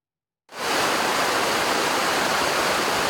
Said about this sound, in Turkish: Deyim yerinde ise Sait Abad Şelalesi coştu, su seviyesi rekor düzeye ulaştı.